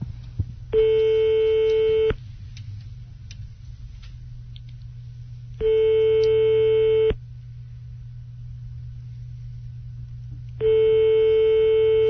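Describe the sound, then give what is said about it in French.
Telephone line tones sound as a call is dialed: three long, steady beeps of about a second and a half each. Long silent gaps separate the beeps, and a constant low hum runs underneath. “Donc on va appeler maintenant et puis tu vas appeler maintenant et puis on va voir comment ça se passe.”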